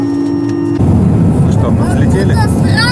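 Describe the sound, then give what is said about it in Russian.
An airliner's engines roar for takeoff, heard from aboard a passenger flight from Vienna to Paris. A steady hum steps up sharply into a louder, sustained roar, with faint voices in the background. “Похоже, будем сейчас взлетать.”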